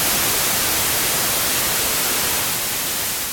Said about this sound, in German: White Noise. Habt ihr vielleicht schon mal gehört? Weißes Rauschen ist ein Signal, das absolute Zufall ist.